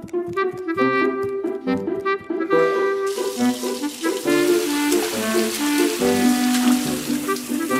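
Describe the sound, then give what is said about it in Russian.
Water splashes and washes in a large basin as toy boats, a dolphin and a submarine are played with; a hissing, bubbling wash builds from about three seconds on beneath a tinkling background melody. “Это был самый большой таз, который я нашел. Можно запускать наши игрушки в ванной.”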